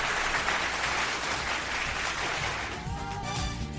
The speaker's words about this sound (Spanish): Bienvenido, aplausos para él.